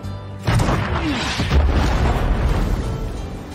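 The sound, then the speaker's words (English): A large explosive charge, set with a long fuse outside a powder room, detonates in one heavy blast about half a second in. A loud, sustained, roaring rumble follows and carries on to the end. “It's a rather large explosive, so I set a rather large fuse.”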